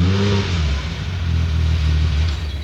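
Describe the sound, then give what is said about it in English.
A Porsche engine revs with a deep, steady mid-pitched rumble that holds fairly even throughout, with no voices. “Now, I drive this Porsche.”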